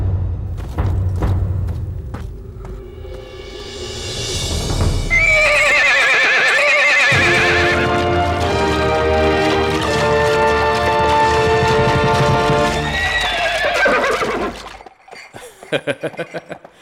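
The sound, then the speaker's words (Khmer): A horse neighs in a long, loud, high whinny that wavers and trails off over several seconds. Thudding hoofbeats come before it, and a few scattered clip-clops and thumps follow. “ល្អណាស់ឯងពិតជាសេះល្អកម្ររកបានមែនយើងពេញចិត្តនឹងសេះដែលរហ័សហួនដូចជាឯងនេះណា”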